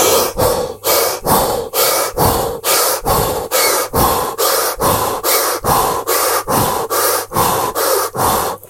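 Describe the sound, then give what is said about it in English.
Rapid breathing in and out through an open mouth, many quick, loud, even breaths in a steady fast rhythm, with no talking. “Open your mouth and breathe as fast as you can, in and out for 20 breaths.”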